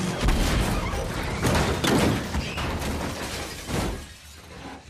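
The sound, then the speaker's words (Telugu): Loud crash as a car loses control and plunges into a river: a sustained, noisy burst of crunching and shattering with several surges in loudness, and no voices. “Car control తప్పి నదిలో పడిపోయింది.”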